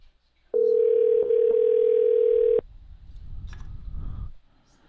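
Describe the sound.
An outgoing telephone call rings with no answer: one steady, mid-pitched ringback tone lasts about two seconds and then stops abruptly, followed by a softer stretch of low rumbling noise.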